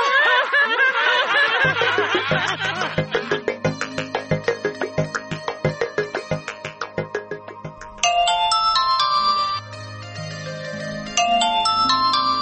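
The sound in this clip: A mobile phone ringtone plays loudly, moving from a pulsing run of repeated melodic notes into brighter, higher chiming tones in the second half.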